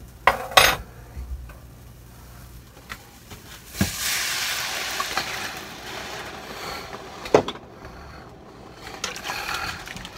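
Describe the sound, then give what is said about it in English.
Beef broth is poured into a pan to make gravy, a soft, steady wash of liquid with a few sharp metallic clinks of utensils against the pan scattered throughout. “All right, now goes in our beef broth.”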